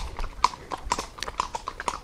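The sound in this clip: Horse hooves clip-clop at a steady walking rhythm as the horse is ridden uphill through green Alpine foothills, many crisp hoof strikes following one another with no talk.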